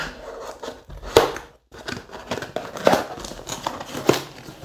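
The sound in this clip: A cardboard box wrapped in plastic cellophane is ripped apart by hand. A busy run of crinkling, tearing and scraping carries a few sharper cracks, fairly loud throughout, with a short pause partway through.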